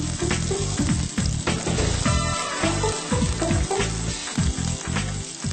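Chopped onion fries in heated oil in a pan, giving a loud, continuous sizzle and crackle with a rhythmic scraping of stirring throughout and no voices.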